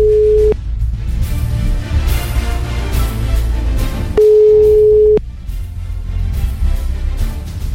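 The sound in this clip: A telephone tone heard while a call is dialed: two plain, steady mid-pitched beeps, a short one and then a longer one a few seconds later, over a continuous loud background.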